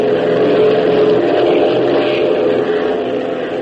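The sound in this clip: Aircraft engine roar of a Fairchild Packet transport plane under throttle, a loud steady droning rumble with a broad rushing hiss, continuous and without voices.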